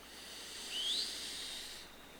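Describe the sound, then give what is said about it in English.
A soft breath drawn in through the nose during a belly-breathing exercise: one faint, hissing inhale that swells and fades, with no voice. “Inhale through the nose. And exhale. Two more. Inhale.”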